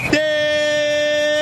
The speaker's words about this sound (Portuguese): Termina o jogo em Porto Alegre.